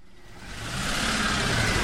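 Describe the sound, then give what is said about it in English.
Vehicle engine noise from massive four-wheel drive UN and NGO vehicles and newly imported motorbikes on potholed roads in Juba, a mid-pitched engine drone that swells gradually from faint to moderate and then holds. “Massive four-wheel drive vehicles, UN and NGO logos branded on their sides, lumber through the Juba potholes, zigzagging alongside our newly imported motorbikes”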